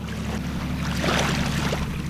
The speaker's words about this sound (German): Ich fahre auf einem Fährboot auf die Insel Lonna